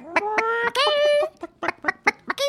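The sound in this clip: A woman's voice imitating a chicken clucking: a couple of drawn-out, squawking calls, then a rapid string of short, choppy clucks.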